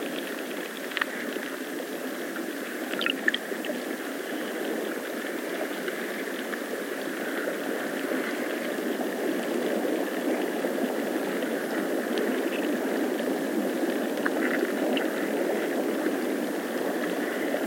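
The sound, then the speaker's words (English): Rushing, rippling water forms a steady, dense hiss that holds evenly for the whole stretch, with faint brief splashes and trickles here and there and no voices. “Water rushing, leaves brushing the rippling water below.”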